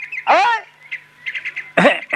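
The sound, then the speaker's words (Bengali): A person imitates a cuckoo's call: a loud, warbling, bird-like cry, then a run of short faint chirps, and a final strong burst. “তুই বল বল কেন কোকিল ডাকছিলি বল?”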